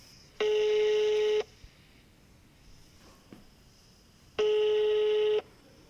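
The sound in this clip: Ringback tone sounds as a telephone call is placed, two long steady buzzing tones of about a second each separated by a pause, over faint background hiss.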